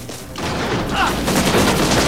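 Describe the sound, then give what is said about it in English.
Pistol gunfire cracks out in a shootout between armed men around a barn and a hacienda. A sharp onset leads into a dense, loud barrage of shots and booms that stays intense to the end. “Beckett jumps down from the barn, rolls and shoots a man in the chest with his pistol.”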